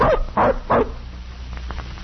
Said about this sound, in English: Say, this dog don't look big enough to travel with a pack. He's still a puppy.